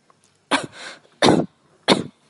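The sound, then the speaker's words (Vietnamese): Violent, dry coughing from a person, three harsh loud bursts spaced at roughly even intervals, with a ragged wheezy breath after the first. “người trong lòng bỗng ho khan kịch liệt”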